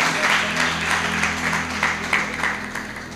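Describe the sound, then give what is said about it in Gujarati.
Applause from an audience at a Hindu religious discourse, welcoming a revered monk after a devotional hymn. The clapping is dense and steady for the whole stretch, with a low hum underneath. “આપણે ખૂબ તાળીવાદન કરીને પૂજ્ય સ્વામીજીનું સ્વાગત કરીએ”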